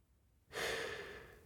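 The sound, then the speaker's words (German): A single deep breath drawn in, a soft, breathy rush of air that starts abruptly after a quiet moment and holds steady for about a second, heard alone without talk. “Ich nehme einen tiefen Atemzug.”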